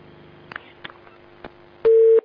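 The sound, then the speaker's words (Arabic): A telephone busy tone after a call is cut off: a few soft clicks, then one loud, steady, mid-pitched beep at the very end. “قطع الاتصال.”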